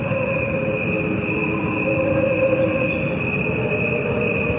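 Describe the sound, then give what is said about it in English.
Crickets chirping, slowed down, form sustained layered tones that sound like a humming drone, with faint regular pulsing above it and no voices or instruments. “Their sounds are slowed down to the equivalent of a human lifespan. What you are hearing are the crickets only. No instruments or voices are added.”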